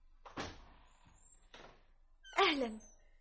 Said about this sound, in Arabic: من الطارق؟ أنا بركة يا أسماء. افتحي يا بنت أبي بكر.